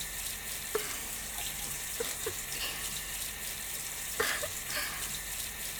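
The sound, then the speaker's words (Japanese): Hot water running from a tap makes a steady, even hiss with a few faint clicks and drips scattered through it. No voices are heard. “先っぽにお湯当てられるの気持ちいいですね。”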